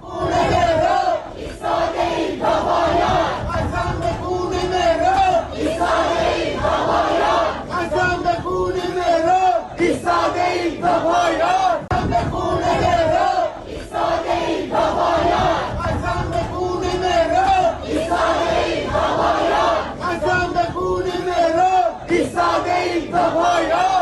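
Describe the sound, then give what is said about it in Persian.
Protesters chanting slogans at the fortieth-day memorial ceremony for Mehran Samak, a large crowd shouting loud, rhythmic, repeated chants that continue without a break. “معترضان در مراسم 40م مهران سماک از جمله شعار می‌دادند که”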